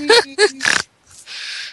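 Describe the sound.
A person's snorting, pig-like laugh: a few short voiced bursts, then a breathy, noisy exhale, loud and close.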